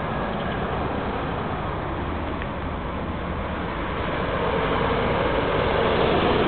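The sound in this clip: Roadside street ambience with passing traffic: a steady, dense roar of vehicle noise with no distinct individual events, swelling slightly louder toward the end.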